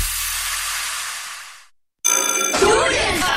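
A telephone rings in a bright, buzzy electronic tone, suggesting a market researcher's call. The ringing starts abruptly after a stretch of steady hiss and a moment of silence.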